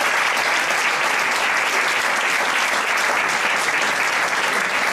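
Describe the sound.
Audience applause at a community event, a dense, steady clapping from a crowd that stays loud and even for the whole five seconds with no talking over it.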